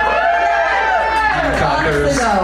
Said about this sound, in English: Hardballers. It sounded like a tie. No, hardballers. People who cheered for hardball.